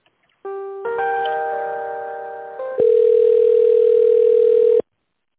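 Telephone line tones during an office call being transferred: a steady electronic tone, then a layered multi-tone hold, then a louder single steady tone that cuts off abruptly.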